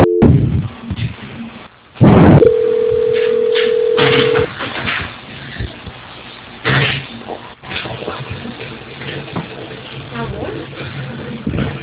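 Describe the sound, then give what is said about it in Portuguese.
Phone-line tones during a call transfer: a click and burst followed by a steady, roughly two-second beep, with muffled, narrow-band voices and line noise before and after. “Eu vou estar transferindo a ligação, tá?”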